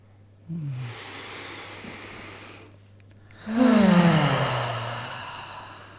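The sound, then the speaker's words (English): A group taking a deep breath together: a long, hissing inhale, a short pause, then a louder and longer exhale carrying a low voiced sigh, all over a faint steady hum. “I think before we answer that question, maybe we can all take a breath.”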